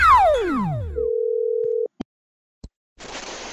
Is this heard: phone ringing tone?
yes

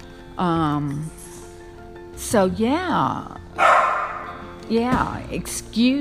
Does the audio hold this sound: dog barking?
yes

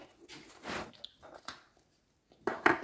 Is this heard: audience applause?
no

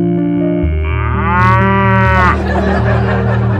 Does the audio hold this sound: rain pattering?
no

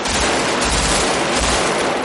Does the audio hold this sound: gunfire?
yes

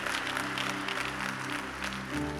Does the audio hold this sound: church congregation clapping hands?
yes

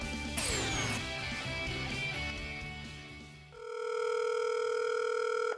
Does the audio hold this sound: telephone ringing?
yes

